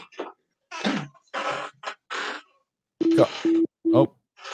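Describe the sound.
A telephone busy signal sounds on a dropped phone call: three short, steady, identical beeps in an even rhythm, following a few seconds of brief, broken talk.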